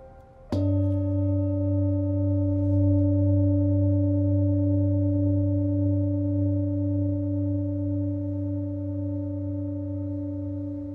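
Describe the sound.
A Tibetan singing bowl struck once near the edge with a striker, in an upward motion, gives a clear metallic strike and then a long, steady ring of several sustained tones that fades only slowly over about ten seconds.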